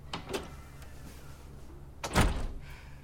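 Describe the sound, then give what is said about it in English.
A door opening: a couple of light clicks from the handle or latch early on, then quiet, followed by a heavier thunk as the door swings. “His dad opens the door”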